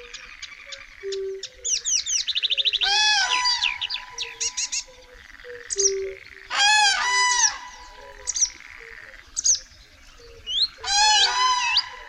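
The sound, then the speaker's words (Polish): Varied marsh warbler song that mimics many other birds, mixing rapid chirps and sweeping trills with harsh, stacked honk-like notes in loud, repeated bursts and short pauses. “Wysłuchać tu można urozmaiconej pieśni łozówki, która potrafi naśladować głosy wielu naszych ptaków.”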